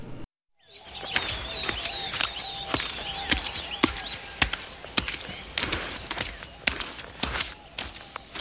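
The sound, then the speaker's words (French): Footsteps walk through mud, many soft, regular steps following one another at a steady pace after a brief silence at the start. “Attention vous marchez, monsieur. Nous ne sommes pas chez nous et nous devons respecter les lieux. Ah, c'est plein de boue.”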